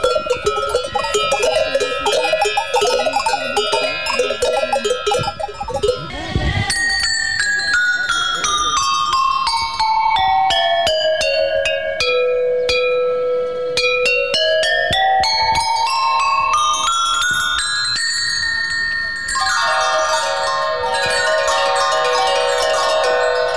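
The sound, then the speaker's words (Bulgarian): Handmade bronze bells and cowbells of different sizes ringing: many bright strikes at varied pitches, with notes stepping down and back up in runs and overlapping metallic rings that sustain throughout. “Различните по големина звънци и хлопки издават различни звуци, които звучат така.”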